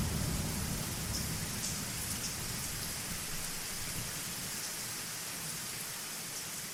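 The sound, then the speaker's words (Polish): Steady rain of a thunderstorm, a continuous dense hiss of drops with low rumbling of thunder beneath, holding an even, moderate loudness throughout with no voices. “Nic się nie zmienia, tylko ten deszcz, tylko ta burza.”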